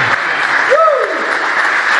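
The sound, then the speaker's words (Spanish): A church audience applauds in a steady, loud wash of clapping. Partway through, a voice briefly cries out above the clapping with a sliding pitch. “Lo voy a volver a repetir para que le demos un aplauso.”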